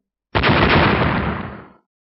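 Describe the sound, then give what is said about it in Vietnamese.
An explosion effect for a white orb and a black staff colliding: one loud, roaring burst that starts abruptly, holds for about a second and a half, then fades. “Những tiếng nổ vang dội đất trời, hư không nơi hai vật đụng vào nhau thình lình vỡ vụn”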